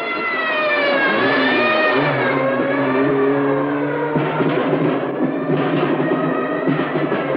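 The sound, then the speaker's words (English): A police car approaching at night, its loud engine holding a steady, droning note whose pitch wavers as it comes on, with no talk. “As a police car approaches, Angelo runs into the darkness. Another squad car rolls up”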